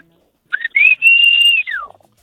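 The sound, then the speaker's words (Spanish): Whistling used as a street signal to call friends out to play football: a short high whistled note, then a long steady tone that ends in a downward slide, loud and alone. “Entonces ya nos poníamos en la calle y empezábamos a chiflar.”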